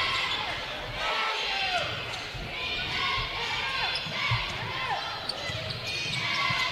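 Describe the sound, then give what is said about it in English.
A basketball dribbled on the court during a game, with a few low thuds of the ball bouncing under a constant murmur of crowd noise. “Dribble penetration by Seibert.”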